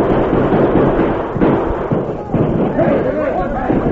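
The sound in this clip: Carbine gunfire exchanged between soldiers and outlaws on a hillside at night, as a sound effect: dense, loud bursts of rapid shots and thuds run continuously, with shouting voices over the firing.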